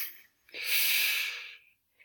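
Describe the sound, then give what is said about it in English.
A group takes a deep breath in together: one long, airy inhalation hiss that swells, holds and then fades, followed by a brief faint breath at the end, with no talking. “All right, everyone take a deep breath with me, in”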